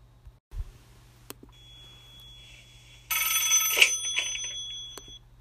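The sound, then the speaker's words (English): Telephone handset being picked up: a soft low click early on, then a few seconds of bright, steady electronic ringing tones before fading. “That's the sound of a phone being picked up.”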